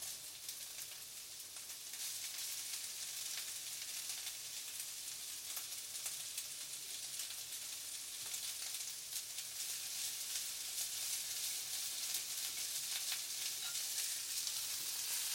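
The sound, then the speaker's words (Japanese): Food stir-fried in a pan sizzles and crackles in a continuous, dense hiss that grows slightly louder over time, with no talking. “何かを炒める音、久しぶりに聞いた気がする。”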